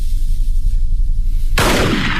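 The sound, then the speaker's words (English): A single loud gunshot, a warning shot fired from a gun out near a cliff, bursts suddenly after a steady low rumble and rings on as a broad blast. “That was a warning shot.”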